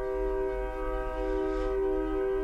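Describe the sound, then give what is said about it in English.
A train sounds its horn in a sustained, steady multi-tone chord that holds unbroken over a low rumble, with no clear rise or fall in loudness. “I love that we can hear the train too.”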